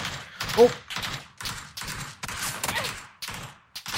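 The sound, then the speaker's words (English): Gunfire from a vehicle in a video game: many rapid bursts of automatic fire separated by short gaps, moderately loud. “Oh! I just got hit by friendly fire by your vehicle.”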